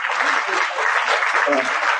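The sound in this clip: An audience at a web and mobile festival event in Shiraz breaks into applause, thick and steady clapping that stays at an even, loud level throughout.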